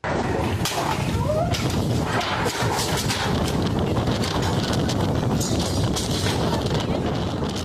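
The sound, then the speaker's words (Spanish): Strong gusts of Hurricane Polo batter a department store in La Paz, Baja California Sur, knocking down mannequins, displays and goods. A loud, unbroken roar of rushing air runs throughout, with scattered bangs and clatters. “Fuertes ráfagas de viento azotaron una tienda departamental en La Paz, derribando maniquíes, exhibidores y mercancía, mientras clientes y empleados buscaban dónde refugiarse.”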